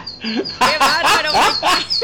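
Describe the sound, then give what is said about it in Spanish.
Little bird singing: a few bright, squeaky warbling chirps with rising and falling tones, loud and alone. “¡El pajarito te está sonando mucho, amigo!”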